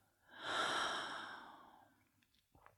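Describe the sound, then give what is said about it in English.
A deep, slow breath during a guided breathing exercise, drawn in through the nose and let out through the mouth. It sounds as one soft, airy breath that swells quickly, then tapers off gradually, followed by a few faint clicks. “Take a deep, slow breath in through the nose. And out through the mouth.”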